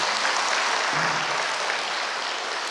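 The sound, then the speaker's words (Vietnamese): Applause at a Vietnamese Buddhist gathering honoring elders: loud, steady clapping from many hands forms a dense, even roar without voices, easing only slightly toward the end. “Vì vỗ tay một lần nữa mới được.”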